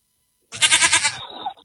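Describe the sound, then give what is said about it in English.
A goat bleats once, a loud, quavering cry about a second long with a shaky tremolo that thins out and fades at the end. “Vicky the Goat, and poor Vicky, we don't know what happened to Vicky, but probably nothing good. And you know, maybe the Iranians will pay in a herd of goats.”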